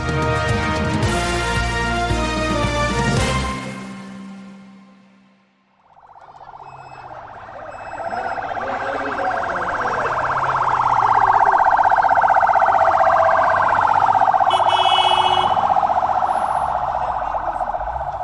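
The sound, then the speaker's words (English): Ambulance sirens wail as the vehicles arrive at the Rafah crossing on the Gaza–Egypt border. After a brief stretch of other sound, the siren's sweeping tone rises in loudness and holds steady and prominent to the end. “What you're hearing now are ambulances arriving at the Rafah crossing on the border between Gaza and Egypt.”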